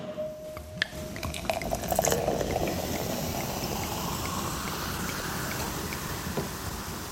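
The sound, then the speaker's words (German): Champagne-method South African sparkling wine fizzing: a steady, dense hiss of tiny popping bubbles that carries on evenly throughout, with no talk. “Es klingt wie ein französischer Champagner, es ist aber keiner. Wir sind nämlich in Südafrika”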